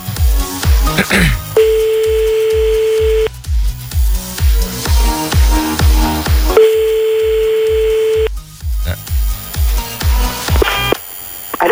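Ringback tone of an outgoing phone call: two long, steady, mid-pitched tones separated by a pause, set against a loud, rhythmic pattern of low thumps.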